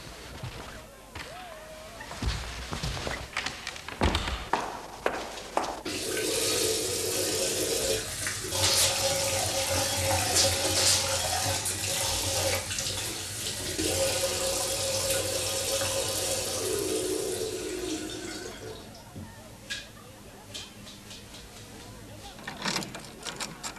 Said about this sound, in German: darf ich mir mal die Hände waschen? Nebenan ist ein Badezimmer.